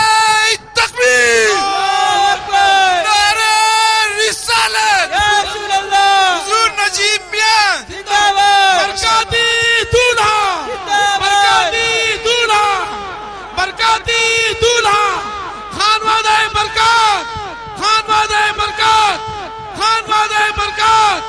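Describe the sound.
A leader calls out Naara-e-Takbeer and Naara-e-Risalat at a Naqshbandi religious gathering, and the crowd answers with loud unison shouts, the call and response repeating many times in forceful bursts.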